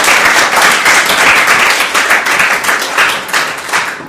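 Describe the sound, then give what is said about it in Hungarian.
Applause greets a team member who played guitar and is about to share his testimony; many hands clap in a loud, dense, steady patter throughout. “He's going to share his testimony. Meg fogja osztani velünk a bizonyságát. Big, nagy tapsot neki.”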